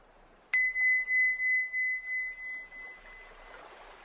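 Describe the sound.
A small bell rings once during a children's yoga session, a bright high ding followed by a long ringing tail that pulses and wavers as it slowly fades.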